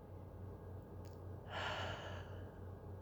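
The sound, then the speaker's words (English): A single deep breath, soft and airy, rises and fades over under a second against a faint low hum in otherwise quiet surroundings. “You'll be taking a deep breath in and out.”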